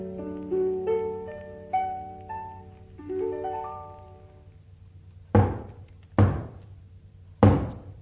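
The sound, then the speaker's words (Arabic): Three loud, heavy knocks on a door, unevenly spaced, follow a short passage of plucked-sounding musical notes. “دي خبطة عالي وما يفتح حنيشة”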